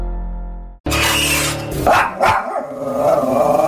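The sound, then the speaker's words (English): A dog barking in several loud, rough bursts of varying strength, following a sustained tone that cuts off abruptly just before the first bark. “What you just heard is my super friendly, totally docile, wonderful puppy”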